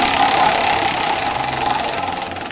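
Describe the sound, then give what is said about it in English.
A prize wheel being spun in a quiz game, a dense, rapid whirring rattle of ticks that stays loud and fairly even throughout. “I'm going to give the wheel a spin, and let's see what happens.”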